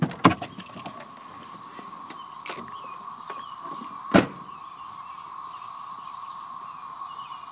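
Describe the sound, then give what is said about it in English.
A truck door is opened: a few light clicks, then one sharp, louder latch clack, all over a constant buzzing drone of insects outside. “Now, listen to this as I open the door.”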